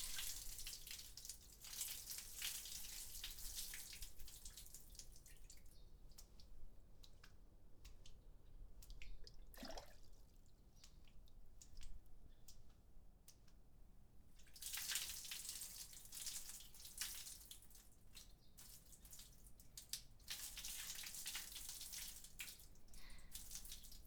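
Warm water poured over a person at a bath, a faint broad splashing stream in two long spells with a quieter stretch of drips and trickles between them.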